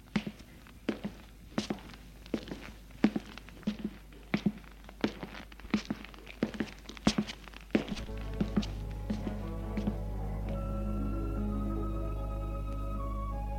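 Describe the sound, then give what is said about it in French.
Footsteps of a woman walking out of a room: many light, evenly paced steps for about eight seconds, which then give way to a swelling, sustained musical tone. “Et elle sort de la pièce.”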